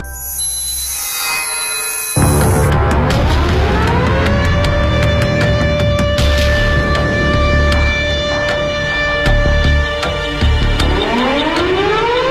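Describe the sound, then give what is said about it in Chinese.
An air-raid warning siren wails over a city, beginning after a short high tone, rising in pitch and then holding a loud, steady howl, with a second rising wail starting near the end. “这就是当时各个城市上空的防空空袭警报的声音，警报声像烽火台上的烽火一样，从一个城市传到了另外一个城市。”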